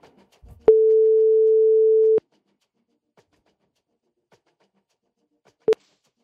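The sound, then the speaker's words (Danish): An outgoing telephone call from a radio studio rings out as a single steady, pure electronic tone lasting about one and a half seconds. Silence follows, broken near the end by one brief beep. “Hvis du har sendt mig en sms, og der er en telefon, der ringer, så må du meget gerne tage den nu.”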